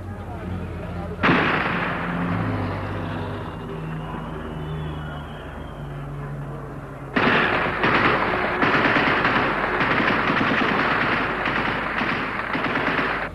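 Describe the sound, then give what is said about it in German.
Gunfire in Prague's city streets, shot over the heads of demonstrating citizens during the Soviet occupation: a loud, steady noisy roar that breaks into dense rapid bursts of shots partway through. “An mehreren Stellen der Stadt wird geschossen. Zunächst über die Köpfe demonstrierender Bürger hinweg.”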